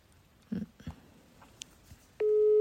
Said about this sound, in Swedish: Vad olika ring. Mm. Var det inte det? Jo, det är för att de har olika operatörer tror jag.